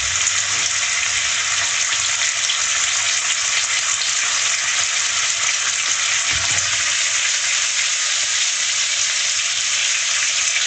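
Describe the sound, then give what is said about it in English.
Bacon fries in garlic olive oil on a gas stove, giving a loud, dense, continuous sizzle and crackle that holds steady throughout. “Cooking up some bacon in the garlic olive oil here. I like cooking with gas a lot better than cooking with an electric stove”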